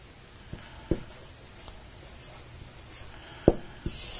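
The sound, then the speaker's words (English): A pen writes by hand in soft, faint scratching strokes against a quiet background, broken by a few sharper taps and clicks of the pen on the surface. “Let me write this down.”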